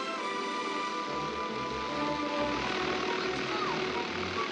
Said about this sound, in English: The plane lifts off.